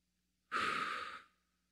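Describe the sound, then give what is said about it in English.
A single deep breath drawn in slowly during quiet prayer time. It is a soft, airy inhale of about a second that fades out smoothly, heard alone without talk. “Maybe you take a deep breath in.”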